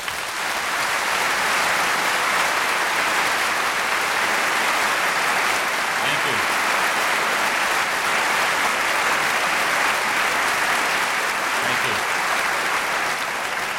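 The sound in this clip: Audience applause welcomes David Brooks at the Westminster Town Hall Forum: thick, continuous clapping from a large crowd that stays loud and even for the whole stretch.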